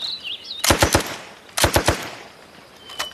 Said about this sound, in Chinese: 机枪，给我突突。